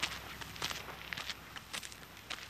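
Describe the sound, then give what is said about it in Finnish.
Footsteps walking over cobblestones of natural stone with coarse sand between them, a steady series of gritty, crunching steps at an even pace, fairly quiet, with no talking. “Onko tämä nyt mukulakiveä vai mitä tämä on, missä me kävelemme? Tämä on niin kuin luonnon kiviä ja sitten karkeita hiekkaa siinä välissä”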